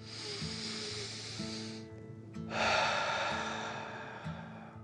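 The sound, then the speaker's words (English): Deep breathing: a long breath drawn in, then a fuller, louder breath let out, both soft and airy, with gentle sustained music underneath. “With another deep breath in and out,”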